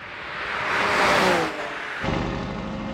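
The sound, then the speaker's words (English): A Porsche 911 Carrera engine revs while driving on the Autobahn. The loud roar swells to a peak, drops off sharply, then settles into a steady, lower drone. “The Porsche 911 Carrera.”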